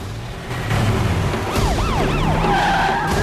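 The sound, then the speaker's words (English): A fire truck spun around on the road during a chase: screeching tyres over a rumbling engine, with several squealing, wailing tones that rise and fall one after another in the second half. “As he grabs the steering wheel and spins the truck around, terrified firemen leap from the moving vehicle.”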